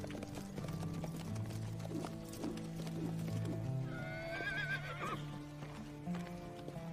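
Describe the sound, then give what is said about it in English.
Horses trot gently in a dirt enclosure at a ranch, their hooves thudding softly in a steady low clatter, with a high, wavering neigh rising partway through. “He saunters over to a dirt enclosure, where a few guys trot their horses gently.”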